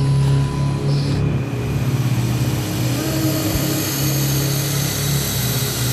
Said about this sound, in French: L'avion se pose enfin